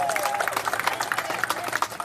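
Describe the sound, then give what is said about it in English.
A Notre Dame crowd at a college baseball game claps and cheers with a runner on base. Quick claps ripple over a constant crowd murmur at a moderate, fairly soft level. “boy, I'll tell you, this Notre Dame crowd is fired up. You know, they get a guy on base and they're ready to get something going.”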